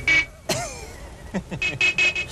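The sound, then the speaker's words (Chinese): Car horns honking from behind a stopped car in a film street scene: a few short, bright, steady-pitched blasts that start and stop abruptly. “你听唔到后边啲车 boot 嘅咩？开车啦！”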